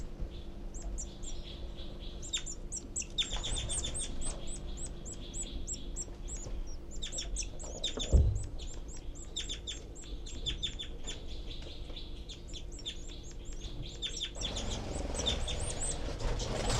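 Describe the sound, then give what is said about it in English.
Baby birds in a nest beg loudly and insistently. Many rapid, high-pitched chirps come in dense bursts over a steady low background hum, broken by one brief dull thump midway. “Their heads are poking way high up in the nest. Loud begging by the babies”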